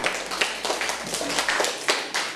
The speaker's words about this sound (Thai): ปรบมือให้เพื่อนค่ะ